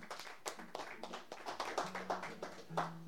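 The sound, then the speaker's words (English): Faint, sparse clapping from a small audience welcoming an open mic performer: distinct individual hand claps land in a loose, steady stream throughout. “So please give Dan Senny a big welcome.”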